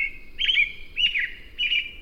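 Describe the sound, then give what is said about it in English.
An American robin sings three short, clear, whistled phrases, each a bright warbling burst with brief pauses between, over a quiet background. “the serenade of an American robin”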